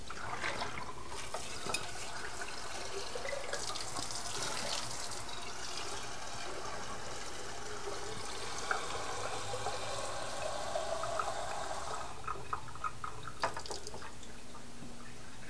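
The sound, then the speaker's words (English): Running water pours steadily from a tap as fresh water is drawn for flowers, a continuous broad splashing rush at even loudness that cuts off near the end, followed by a few faint knocks; no one speaks. “Mommy's going to go get more water, honey. Fresh water for all the flowers.”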